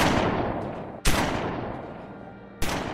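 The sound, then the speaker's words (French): Three revolver shots ring out, each a sharp, loud report with a long decaying tail: one already sounding at the start, a second about a second later, and a third near the end, with no voices. “Trois coups de feu retentissent.”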